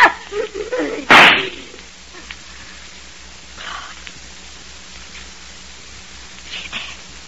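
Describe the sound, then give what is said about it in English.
A single loud, sharp gunshot cracks early on in a radio drama, followed by a quiet stretch of hiss with a few faint, scattered sounds. “But in just 2 seconds, I'm going to shoot you right through the heart.”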